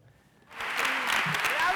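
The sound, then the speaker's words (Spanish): An audience gives a film a standing ovation at the San Sebastián film festival: after a quiet moment, dense clapping bursts in and holds steady and loud, with voices mixed in. “Es la ovación que recibió la bola negra de los Javis. Aplausos durante 15 minutos en San Sebastián para esta película inspirada en la figura de Lorca y ya premiada en Cannes y Toronto”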